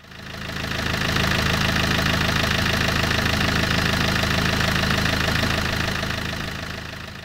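A car engine idles with the handbrake on and gases escape from the exhaust pipe. The hum is steady and continuous with a faint knocking texture. It swells in at the start, holds even, then eases slightly at the end.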